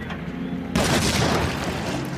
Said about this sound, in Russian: Один бандит бросает в подвал гранату.